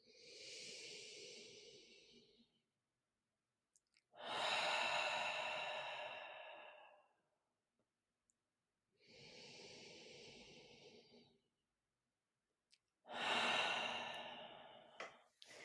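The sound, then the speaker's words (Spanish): Slow breathing in and out during a guided breathing exercise: four long, breathy airflows separated by pauses. Softer and stronger breaths alternate, each swelling and fading gently, with no talk. “Inspira. Exhala. Dos más.”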